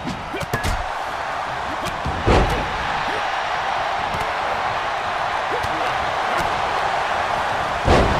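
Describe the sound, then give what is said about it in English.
A gut-wrench slam lands in the WWE 2K23 wrestling video game as a couple of heavy, dull thuds over a steady, dense crowd roar that continues throughout. “Gut-wrench slam.”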